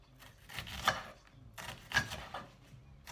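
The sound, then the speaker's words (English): Knife chopping half an onion roughly on a board, a few sharp wooden knocks spaced unevenly, two of them noticeably louder than the rest, with no talking. “Got a half an onion left from the other day, so I'm going to use that. Just going to chop this, not finely or anything like that, just not pretty.”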